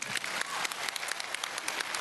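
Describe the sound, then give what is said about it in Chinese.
An audience applauds on a dating-show stage, a faint but steady patter of many hands clapping throughout. “主持人们，这时候该要掌声了，鼓掌。”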